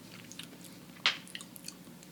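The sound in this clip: Chewing a chocolate-covered dry roasted chickpea coated in dark chocolate: faint, soft mouth sounds with one sharp crunch in the middle and a few lighter clicks around it.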